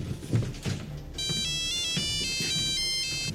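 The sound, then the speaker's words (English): Electronic ringtone of a satellite phone aboard a cargo plane: a bright, high, warbling pattern of repeating beeps that starts about a third of the way in, after a few soft low thumps, and continues at a steady level to the end. “In a nearby cargo plane, an older man answers his satellite phone.”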